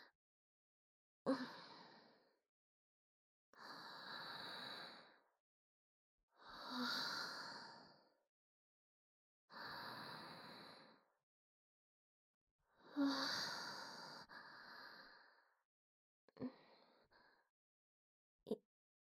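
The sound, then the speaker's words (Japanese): Slow, deep breathing, faint and alone: about five long, drawn-out breaths separated by pauses, followed by a couple of shorter, lighter breaths at the end. “深呼吸する。”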